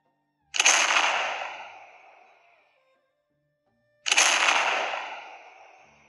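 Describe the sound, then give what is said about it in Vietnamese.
Two cannon-fire explosions, each a sharp crack followed by a long, decaying roar that trails off into silence. The two blasts are separated by a gap of a few seconds. “Hai cột khói đen vọt lên trời, tiếng nổ kinh thiên làm lỗ tai mọi người kêu ong ong.”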